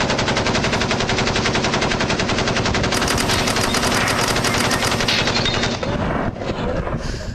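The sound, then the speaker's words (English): Rapid machine gun fire pours out in one long, unbroken stream of dense shots, loud and alone, holding steady for about six seconds before dropping slightly in level near the end. “My favorite part is when you hear the shell casing start to hit the floor.”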